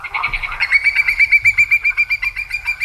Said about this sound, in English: That is the call of a whimbrel.